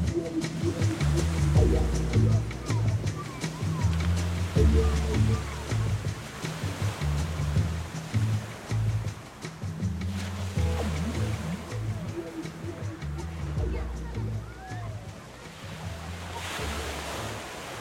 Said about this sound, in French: À 16h, à Nice, une vague par Anita Castiel.